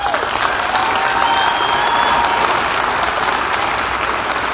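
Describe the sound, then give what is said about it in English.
Dense audience applause at a church gathering welcoming a bishop, loud, steady clapping that holds without a break throughout. “let's all put our hands together and welcome Bishop Ed Gunger”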